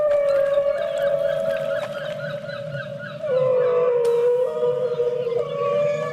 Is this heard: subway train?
no